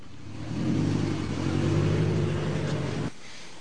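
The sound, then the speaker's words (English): A car drives away with a steady mid-pitched engine drone that holds for a few seconds, then drops off abruptly and leaves only a faint background hiss. “There she goes, driving away, Mary Pallotta”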